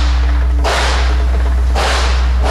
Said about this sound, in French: 45 ans que les collines d'Allau tremblent au bruit des calibres de ce stand de tir en plein air.